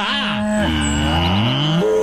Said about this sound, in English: Maybe a cow? Did they steal a cow? That would be hilarious. They stole moolah.